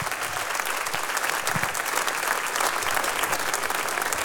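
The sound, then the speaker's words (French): Jazz club audience applause after a live set, a dense, sustained roar of many clapping hands, loud and steady throughout with no speech over it. “vous pouvez les applaudir encore une fois”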